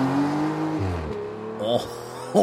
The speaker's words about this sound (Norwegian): snart kunne de høre sportsbilen bromme til liv før den forsvant ut I kveld.